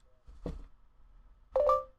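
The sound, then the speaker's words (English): A phone's voice-command prompt, accidentally triggered: a brief knock, then a short electronic chime of a couple of clear tones, both faint and set apart by a quiet pause. “I don't know what that noise was. It was my phone. I accidentally bumped the, like, record to speak, to say what you want type things.”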